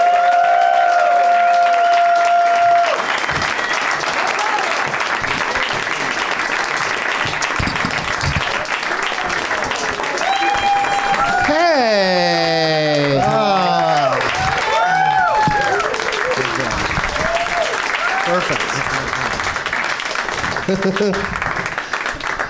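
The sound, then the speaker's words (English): A studio audience applauds as three show guests are introduced, loud and sustained throughout, with whoops and cheering voices swelling through the middle before the clapping carries on to the end. “Please give a big warm welcome to Melissa Staden, Ken Reed, and Scott Thompson.”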